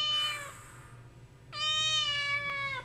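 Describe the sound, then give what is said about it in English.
Cat meowing on a plane: a short meow, then after a pause a longer, louder meow with bright harmonic tones over a steady low hum. “Cats have, like, needle teeth.”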